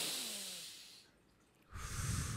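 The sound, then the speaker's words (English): Forceful breathing during a deep-breathing routine: a long, loud blowing exhale fades away, a brief quiet gap follows, and then another strong breath rushes in sharply. “I literally blow out this way. I do it constantly until it becomes a rhythm.”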